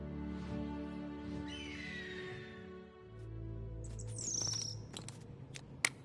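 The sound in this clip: A thrush calls with a few high, sweeping chirps over a steady low drone, set at a mountain at sunset, with a single sharp tap near the end.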